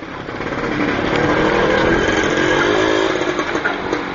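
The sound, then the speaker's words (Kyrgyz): Engine of a homemade tractor running, built with a Muravey scooter motor, Zhiguli gearbox, Zaporozhets front and Moskvich rear axle. It makes a loud, steady, buzzy drone that swells slightly at the start and stays fairly even. “Мына бул тракторду өзүңөр көргөндөй, Жигулинин коробкасы турат. Муравейдин мотору, алды Запорожецтики, арткы мостору Москвичтики турат.”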